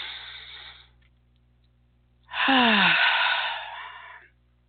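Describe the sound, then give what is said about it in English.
A deep breath taken on cue: a faint, airy intake, a short pause, then a loud, drawn-out exhale lasting about two seconds that sighs slightly downward in pitch at its start. “I want you to take a deep breath. So let's do that real quickly.”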